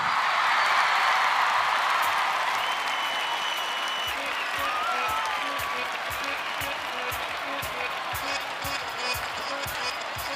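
Sustained concert audience applause at a radio station's 40th anniversary show, a dense, loud wash of many hands clapping that holds steady for the whole stretch.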